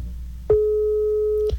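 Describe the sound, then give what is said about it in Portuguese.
A telephone line tone heard during a call, like a busy signal: one steady, mid-pitched beep lasting about a second over a low background hum. “esse não é o Raí, esse é um barulho que nem sempre se ouve, né? O barulhinho de telefone.”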